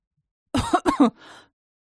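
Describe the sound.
A voice imitating a woman coughing after choking on a sip of tonic: a few quick, harsh, throaty coughs followed by a softer breathy rasp, with no other sound around them.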